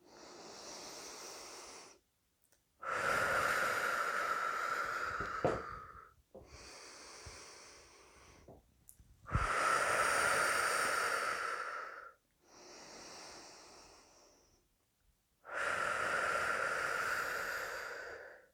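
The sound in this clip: Slow, deep guided breathing during a relaxation exercise: long, airy inhales and exhales of a few seconds each, separated by brief pauses. The breaths are soft, with no talk.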